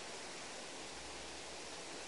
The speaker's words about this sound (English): We're now standing above two waterfalls, which are careering water from Agill Dam to our left, down into Roundhill Reservoir to our right.